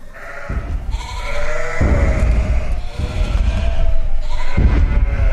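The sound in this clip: Herd of sheep bleating, loud overlapping wavering cries rising in several surging bursts over a low rumble.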